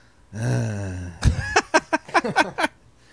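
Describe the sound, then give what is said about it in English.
A person's voice imitates their father's exhale: a drawn-out, low, groaning breath, then a quick run of short voiced bursts. “I realized I exhale like my father. I'll just be around the kitchen and go,”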